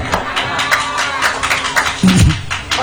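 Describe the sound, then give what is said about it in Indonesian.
A small part of an audience claps hands, giving scattered, uneven handclaps rather than full applause. Voices murmur underneath, and one person calls out briefly near the end. “Tepuk tangan kok ming sing pojok kono tok pro.”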